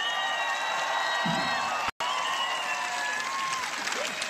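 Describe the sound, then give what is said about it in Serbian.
Loud applause and cheering from an audience as musicians are introduced at a live music event, with dense clapping and whoops that briefly cut out midway. “Jedan veliki aplauz za Miroslava Cvetkovića Cveleta. I jedan veliki aplauz za Nenada Stamatovića Neleta.”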